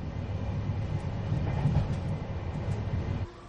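Steady rumble of a train travelling on rails, heard from inside a carriage: a continuous broad, low roar with a faint rattle that holds its level and then eases slightly near the end.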